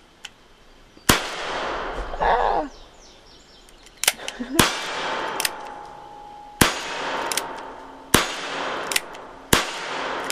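Pistol shots fired at targets on a cowboy-style shooting range: five sharp, loud cracks, irregularly spaced, each with a short ringing tail over low background noise.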